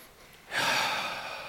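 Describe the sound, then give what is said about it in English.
A single deep, cleansing breath, soft and airy, swells up midway and draws out steadily until the end. “So I invite you in this moment to join me in taking just a deep cleansing breath.”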